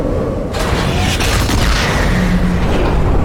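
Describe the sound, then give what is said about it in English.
A gun fires with heavy recoil, a single deep boom that breaks in sharply and then carries on as a sustained low, thundering rumble. “So it is. Oh, it's the recoil of the gun.”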